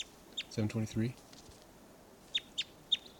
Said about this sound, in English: Both birds.